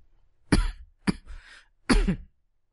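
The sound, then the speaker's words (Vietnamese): Three harsh coughs from a person reading aloud. The bursts are loud and separated by short pauses, and the middle cough trails off into a rougher, fainter tail. “Mọi người thông cảm nhé, ho quá.”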